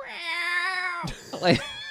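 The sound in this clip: A human voice imitates a cat's meow with one drawn-out, steady-pitched, nasal tone lasting about a second. A brief burst of talk follows.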